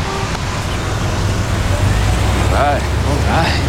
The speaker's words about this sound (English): As the cars start to move again